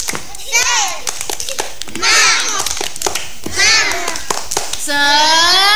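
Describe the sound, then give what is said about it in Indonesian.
Children clap their hands in a rhythmic classroom clapping game, with sharp claps in patterned bursts between children's chanting voices. “Tepuk tangan semua. Tepuk semangat.”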